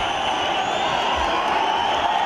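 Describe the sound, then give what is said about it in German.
A jubilant crowd in Asmara cheers and greets Abiy, an unbroken, loud roar of many voices with scattered whoops that holds steady throughout. “Eine jubelnde Menge begrüßt Abiy in der Hauptstadt Asmara.”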